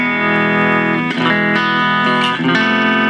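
Overdriven amplifier distortion with a rock effect: a loud, sustained, buzzing distorted chord that rings steadily, broken only by two brief dips.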